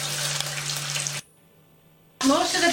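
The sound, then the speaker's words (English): Eggs fry in lard in a pan with a steady, crackling sizzle over a low hum. The sizzle cuts off sharply into near silence, then a loud burst of sound returns for the final moments. “Now I am doing the egg cracking eggs into a pan. Oh, lard.”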